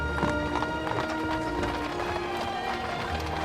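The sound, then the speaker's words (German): Hooves clip-clop in a steady, continuous rhythm as a horse-drawn carriage carries a bridal couple through a city gate into town, the beats blending into a dense, rumbling wash of movement. “Durch das Holstentor fährt die Kutsche mit den Brautleuten in die Stadt ein.”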